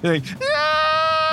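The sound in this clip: A person's voice imitates a bleating goat: a brief nasal cry, then a sustained, steady bleat held for about a second, loud and bright.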